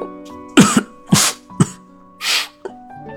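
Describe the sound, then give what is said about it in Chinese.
Several short coughs from someone covering their mouth, rough throaty bursts with a muffled edge, spaced unevenly with brief gaps between them. “捂住自己的嘴咳嗽了好几声”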